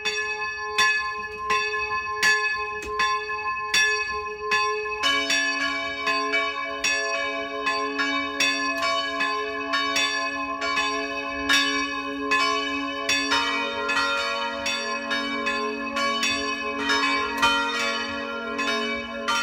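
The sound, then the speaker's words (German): Village church bells ring the noon peal in Enkering, in the Eichstätt district. A single bell strikes steadily at first, then a lower bell joins and more bells later thicken into a full, overlapping ringing with no talk. “Es ist 12 Uhr. Das Mittagsläuten kommt heute aus Enkering, einem Dorf im Landkreis Eichstätt, das heute zum Markt Kinding gehört.”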